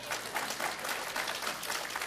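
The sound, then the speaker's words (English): Audience applause: many hands clapping in a steady, dense patter that stays fairly loud and even for about two seconds, with no voices over it. “I give her a hand clap”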